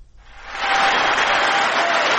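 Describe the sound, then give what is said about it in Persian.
Joe Biden receives applause in the US Congress before his annual speech, clapping swelling quickly after a quiet start into a dense, sustained roar of hands. “تشویق جو بایدن رئیس جمهوری آمریکا در کنگره این کشور قبل از سخنرانی سالانه‌اش”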